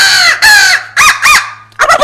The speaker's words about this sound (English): typically if a turkey cuts you off, say with an owl hoot or a crow call, and I'll demonstrate like,